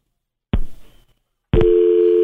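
A telephone line tone after a caller hangs up on a call-in show: a short burst of noise fades out, then after a brief silence a steady, loud electronic tone sounds and holds to the end.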